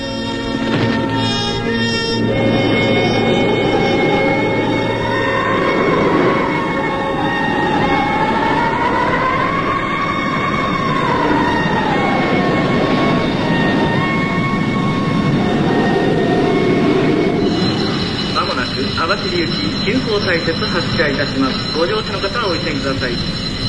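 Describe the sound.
Passenger train running with a loud, steady rolling rumble and long squealing tones that slowly rise and fall, the noise continuing unbroken throughout.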